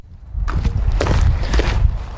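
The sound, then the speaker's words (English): Footsteps of people walking down a street lined with old brick buildings. A few soft steps stand out over a loud, constant low rumble that starts abruptly after a brief silence. “We're walking down the street.”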